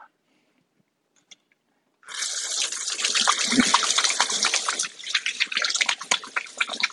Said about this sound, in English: Wash my hands there real quick. Butter's kind of slimy.